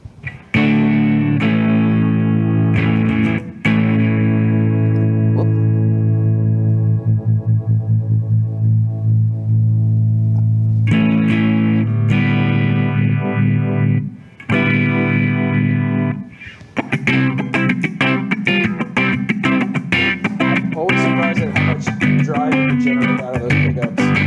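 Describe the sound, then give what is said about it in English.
An electric guitar plays through a liquid phaser effect pedal, ringing out sustained chords with a few sharp attacks, then breaking into fast, busy strumming near the end. “Now let's check out the liquid phaser.”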